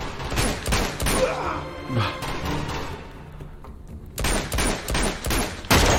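Rifle gunfire in a video game: loud bursts of rapid, sharp shots, with a quieter pause before the firing resumes in several more bursts.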